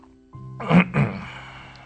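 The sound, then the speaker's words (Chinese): An old professor clears his throat, two rough, gravelly bursts in quick succession over a low, steady hum, with a brief lead-in before them and a fading tail after. “很长一段时间不出声，之后才清清喉咙说道”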